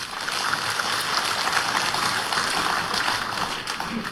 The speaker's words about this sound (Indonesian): Mari kita berikan kepada mereka-mereka yang telah melakukan uji kompetensi dan mereka yang begitu semangat meningkatkan kompetensi mereka. Mari kita berikan aplaus.